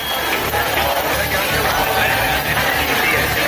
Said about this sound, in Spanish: Este es el sonido de la concentración de esta tarde en Barcelona.